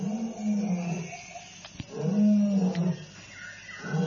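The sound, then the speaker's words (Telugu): A lion roaring in pain, a few low, throaty, drawn-out groaning roars separated by short pauses, rumbling and moderately loud with no voices. “అప్పుడే ఆ సింహం చేసే గర్జనలు బాధ వినిపించింది Androcles కి.”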